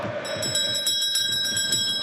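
A bell is rung to mark the elapsed time during a football match commentary in Callao, a sustained, steady ringing tone that holds from just after the start to the end, over a low background rumble.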